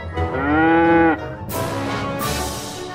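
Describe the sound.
A cow moos loudly, one long, drawn-out tonal moo followed by rougher, breathier lowing calls.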